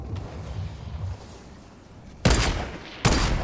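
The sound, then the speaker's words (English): Gunfire in a video game: two loud, sharp shots crack about a second apart after a quiet stretch of low background noise, and each one leaves a short, noisy tail. “Why are they shooting at me?”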